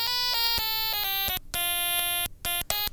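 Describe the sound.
A stylophone plays dry with no effects. Its bright, buzzy, reedy tone steps through many short notes, each pitch switching abruptly, with a few brief pauses between phrases.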